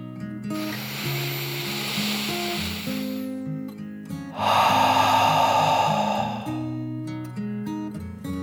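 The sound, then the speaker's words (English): A deep, slow breath is drawn in as a long, airy hiss, then let out in a second, fuller rush of air, both over soft, steady background music. “She took one final deep dragon breath. In and out.”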